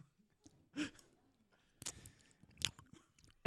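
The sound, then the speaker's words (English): Spaghetti being chewed and eaten: quiet, wet mouth sounds with a few soft bursts and pauses between them. “he's continuing to eat the spaghetti.”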